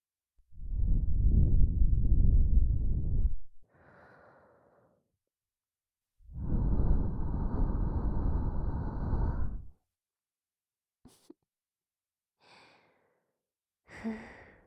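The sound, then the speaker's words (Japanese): Heavy breathing through the nose: two long, loud, forceful breaths of about three seconds each, separated by a pause, with a softer breath trailing the first and a few faint brief noises afterward. “ふうって鼻息が荒いですね。”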